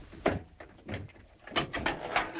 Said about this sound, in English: lifts open the car bonnet.